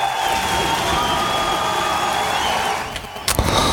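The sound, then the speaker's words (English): Fake audience applause and cheering: a steady, dense wash of clapping that holds evenly, dips near the end, then gives way to a couple of sharp clicks. “Come on, they weren't that good. I think that's fake audience.”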